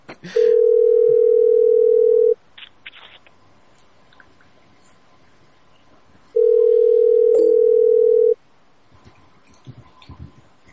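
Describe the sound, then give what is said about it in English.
A telephone dial tone sounds in two steady, loud, single-pitched bursts of about two seconds each. A quiet gap between them holds faint clicks and low background noise. “I thought it was the number I was dialing.”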